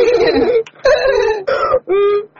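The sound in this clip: A voice imitates a donkey braying: four loud, harsh vocal bursts in quick succession, the first three rough and rasping, the last a smoother, clearer tone, with no other talk.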